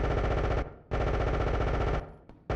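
Loud rapid automatic gunfire in sustained bursts, two long rattling volleys split by a short pause, with a third burst starting at the very end.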